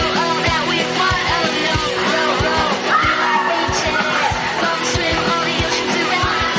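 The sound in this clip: Girls yelling and whooping happily as they run through city streets, their high, excited voices overlapping almost without pause.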